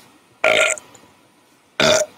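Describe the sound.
Two loud, throaty burps separated by a pause of just over a second, each short and rough, with near silence around them.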